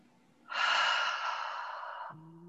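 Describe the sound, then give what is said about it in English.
A deep breath is drawn in during a guided calming moment, a soft, breathy inhale lasting about a second and a half, smooth and steady, that stops abruptly. “Everybody take a breath.”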